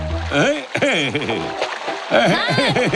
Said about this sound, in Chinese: 看我的水枪攻击！